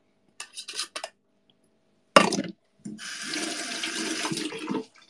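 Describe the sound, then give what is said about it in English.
Tap water runs from a kitchen faucet as hands are washed during lime-and-cilantro food prep, a steady broad rush of about two seconds that follows a few short clatters and one sharp knock. “Wash the hands.”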